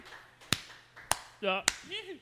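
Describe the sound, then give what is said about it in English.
A sparse smattering of applause from a studio audience: three sharp, isolated claps spaced about half a second apart, with talk between them. “How about a smattering of applause? Just a smattering. Oh, it's a smattering.”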